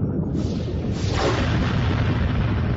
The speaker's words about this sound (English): A blast of turbo laser fire shot past, burning a scorch line in the Predominance's bridge canopy.